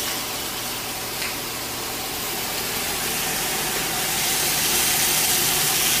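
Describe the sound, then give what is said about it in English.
Oiled food sizzles on a grill in a steady, dense hiss that swells slightly louder toward the end, with no talking over it. “Alright, so we're gonna let this grill just for a little bit.”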